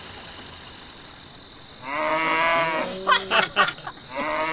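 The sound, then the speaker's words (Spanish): A cow moos near a dusty field by the roadside, giving a long, low, drawn-out call that grows louder and breaks up midway, then a second moo begins at the end. A faint, steady background hum runs throughout. “¿Cómo vas a confundir una vaca con una persona?”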